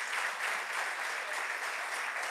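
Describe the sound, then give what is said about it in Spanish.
Applause from an audience at a church service: dense, steady clapping that holds at an even level throughout, with no pauses or swells. “Eso merece un aplauso, eso merece un aplauso.”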